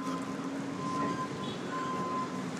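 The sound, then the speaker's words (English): Train noise at the Hollywood and Western Metro stop: a steady rumbling roar with a thin, sustained tonal whine running through it, continuous for the whole stretch with no voices. “So I'm at the Hollywood and Western stop.”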